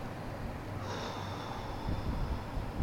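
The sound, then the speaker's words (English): A slow deep breath taken during a guided breathing exercise at the start of a session for shoulder and neck pain: a steady, airy rush of breath that swells slightly toward the end, with no talking. “Let's take another couple deep breaths. Okay, wonderful. Let's take another deep breath.”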